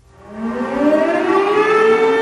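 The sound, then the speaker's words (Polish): Civil defence sirens wail across Warsaw and other Polish cities at 5 p.m., marking a commemoration of the uprising. A loud, steady siren tone rises slowly in pitch as it swells to full strength, holding a sustained, harmonic-rich wail. “O 17.00 w stolicy i w wielu polskich miastach odezwały się syreny i zabrzmiały kościelne dzwony.”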